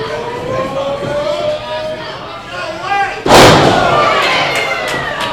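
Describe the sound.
A wrestler is body slammed in a wrestling ring, landing with one heavy, booming thud that cuts through the steady noise of a shouting, cheering crowd at the wrestling event.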